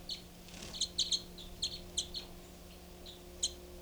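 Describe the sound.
Two birds calling: short, high-pitched chirps in quick clusters come in several bursts, then a lone call near the end, over a faint steady hum.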